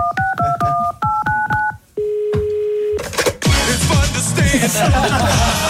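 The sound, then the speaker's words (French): Touch-tone DTMF beeps as a phone number is dialed from a studio control room: a quick run of paired electronic tones, then one steady held tone, followed by a loud, dense burst of sound. “on compose le numéro en régie.”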